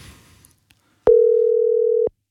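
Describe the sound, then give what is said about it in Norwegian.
A telephone ringback tone on an outgoing call to Tønsberg, Norway: a single steady mid-pitched tone lasting about one second, sharply starting and stopping, after a brief stretch of faint noise. “Vi har tatt en telefon, og denne gangen så ringer vi til Tønsberg.”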